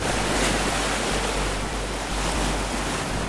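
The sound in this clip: Sea waves wash steadily onto the shore in Reykjavik, a continuous broad roar of surf with a low wind rumble and no pauses throughout.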